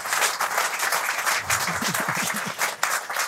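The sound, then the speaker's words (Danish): Studio audience applause for a guest, a chief analyst and portfolio manager, on a Danish investment show. Dense, steady clapping fills the whole stretch, and a few voices or cheers rise briefly in the middle. “Giv ham også en varm hånd.”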